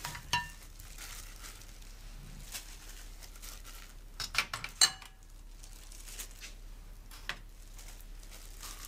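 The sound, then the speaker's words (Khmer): Bamboo shoots, soaked dried mushrooms and tofu are mixed together by hand, with faint scattered rustles, soft pats and a few light clinks, including a short cluster of sharper taps partway through. “ចាមុនដំបូងពេលមុននឹងខ្ញុំខគឺខ្ញុំត្រូវលាយទំពាំងហើយនឹងផ្សិតក្រៀមតៅហ៊ូលាយគ្នាជាមុនសិនចាយើងដាក់ទំពាំងចូល”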